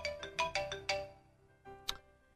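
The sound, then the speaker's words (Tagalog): Phone ringtone for an incoming call, a melodic electronic tune of bright, quick tonal notes in a run, then a short pause before one more sharp note. “Sino naman ba itong tumatawag?”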